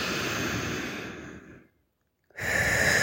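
Breathing exercise with a long, noisy breath released through the mouth, followed by a brief silence and then the rush of the next breath starting. The breath sounds are fairly soft and airy, with no talk over them.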